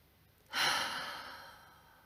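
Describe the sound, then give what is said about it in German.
A single deep breath exhaled through the mouth during a breathing exercise, a loud airy rush that starts suddenly and then slowly fades away, with no talking. “nimm drei tiefe Atemzüge durch die Nase ein, durch den Mund aus.”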